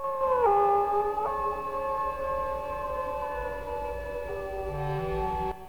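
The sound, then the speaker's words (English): Wolves howling together in long, sustained, wavering tones, several overlapping pitches held at once, with a lower howl joining near the end before the sound cuts off. “The wolf bares its teeth and licks its lips. There are more wolves nearby.”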